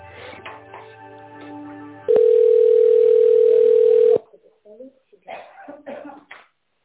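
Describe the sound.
A steady telephone ringing tone plays while an office call is transferred to a colleague: one continuous, even-pitched tone of about two seconds, with people talking on the line before and after it.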